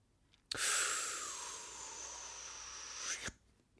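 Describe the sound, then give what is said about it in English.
A long, loud hissing intake of breath lasting about three seconds, made during a quiz game. It holds steady and ends abruptly, with nothing else heard. “Intake of breath.”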